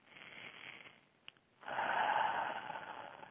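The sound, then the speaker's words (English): A deep human breath, quiet and airy. It begins with a breathy inhale of about one second and a short pause, then a longer, fuller exhale rushes out and slowly fades. “let's take a deep breath.”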